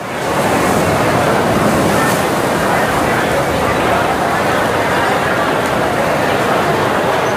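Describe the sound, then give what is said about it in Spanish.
Harbour ambience at the port of Monte Carlo in July 1959: a loud, unbroken wash of surf and wind noise, even and steady throughout with no distinct individual events. “Nos vamos a trasladar eh, lugar y, tiempo al puerto de Monte Carlo, concretamente a un 22 de julio de 1959.”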